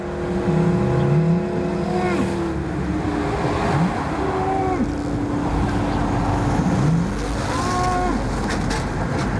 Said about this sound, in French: Ici, pas de pli, pas de colline, pas de montagne pour dissimuler le son de l'autoroute.